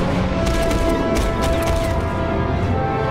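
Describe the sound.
Pulse rifle gunfire in a sci-fi video game: a dense, continuous barrage of rapid shots and blasts with no pauses.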